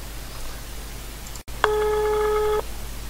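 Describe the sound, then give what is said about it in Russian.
A phone call ringing out: a sharp click on the line, then a single steady ringback tone lasting about a second, over a constant low hiss. “В общем, давайте я им сейчас позвоню, посмотрим, что будет.”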